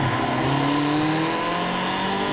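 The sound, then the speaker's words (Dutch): A racing car engine revs in the racing video game Forza Motorsport 7, a continuous buzzing drone whose pitch climbs steadily across the short stretch, with no talk over it. “Een race game genaamd Forza Motorsport 7 is ook gewoon prima te doen nu voor blinden. Dus je kunt racen zonder dat je ziet waar je heen racet.”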